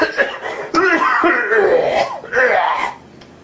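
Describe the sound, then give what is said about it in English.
A man clears his throat in a few rough, raspy bursts, loud and husky with breathy edges, tapering off at the end. “I just had something in my throat, but it's clear now.”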